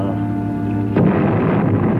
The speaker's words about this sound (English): Don't be so jumpy. That's the road crew back there at the bend. The flagman told us we're going to start blasting, remember?